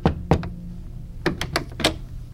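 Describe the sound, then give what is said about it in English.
Knocking on a house door: two bursts of a few sharp, hollow raps separated by a short pause, moderately loud and heard alone without voices. “I kept walking and knocked on his door.”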